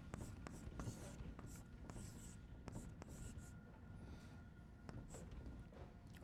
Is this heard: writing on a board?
yes